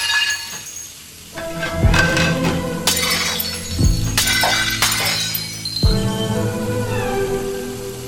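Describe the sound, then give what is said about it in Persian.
Dishes being deliberately smashed: several loud shattering crashes of breaking crockery, each followed by ringing, clinking shards, spread unevenly across the stretch with no talk. “بعدیا رو خودش به عمد میشکنه.”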